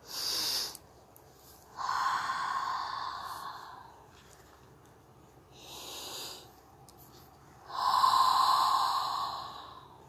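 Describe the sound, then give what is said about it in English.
Slow, deep breathing, with airy inhales and longer, fuller exhales in about two unhurried cycles, heard alone without talk. “Take a deep breath, inhale and exhale.”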